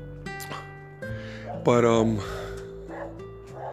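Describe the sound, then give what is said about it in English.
A female dog whining and yelping, a troublemaker in the neighborhood, with high tonal whimpers and one louder wavering cry near the middle. “this dog is good. You could probably hear her. She's tripping right now.”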